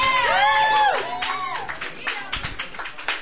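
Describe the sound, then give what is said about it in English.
Audience applauding a performer coming to the stage at an open mic night: a short vocal sound opens, then a small crowd claps at a moderate level, its scattered hand claps continuing to the end. “Please put your hands together for Mr. Tim Chesterton.”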